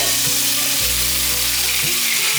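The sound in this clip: Seasonings and soy sauce stir-frying in a pan for a vegan scallop dish: a loud, continuous sizzle holds steady throughout, with a low tonal hum beneath it.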